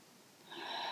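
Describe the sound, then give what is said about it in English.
A deep breath drawn in, a soft airy inhale that starts faint and grows fuller and louder in its second half. “Take a deep breath in and sigh out your exhalation. And again, breathe in”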